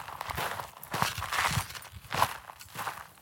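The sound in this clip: Footsteps of someone walking in the desert on an early autumn evening. A steady, soft series of crunching steps repeats at an even walking pace and stays fairly faint.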